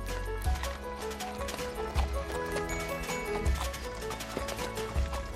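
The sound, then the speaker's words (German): Horses pulling a post coach at a fast downhill trot, their hooves clip-clopping steadily under a dense, continuous rattle, with heavier low thumps recurring at regular intervals. “Der Postillon schlief ein und die Pferde liefen den schnellsten Trab bergunter, immer auf dem bekannten Wege fort.”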